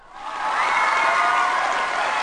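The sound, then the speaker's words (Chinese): An audience breaks into applause that swells quickly and then holds as a dense, loud, steady wash of clapping. “听说上周参加学会，打磨三个月的科普，斩获全国第一，请掌声。”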